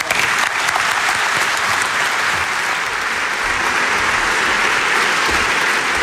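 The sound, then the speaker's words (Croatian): Audience applause at a Croatian Radiotelevision event, greeting the broadcaster's director general. Dense, even clapping holds steady throughout without fading. “Dame i gospodo, pljesak za Roberta Šveba.”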